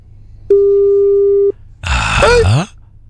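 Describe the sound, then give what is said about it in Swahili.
On an outgoing telephone call that goes unanswered, a single steady mid-pitched ringback tone lasts about a second. A brief groaning voice follows it. “Aya, tunakutafuta kwa simu na wewe shika pia. Ah, msiposhika basi tutakubali kwamba hamna kesi leo. Shika simu basi jamani.”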